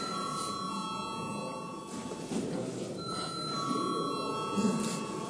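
An electric bell rung in a parliament chamber to call deputies to a vote gives a sustained, high, steady ringing with a short break partway through, over a faint background murmur.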